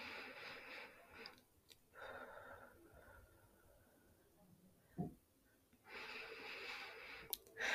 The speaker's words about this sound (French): Attendez, on va respirer à trois ensemble, vous êtes prêts?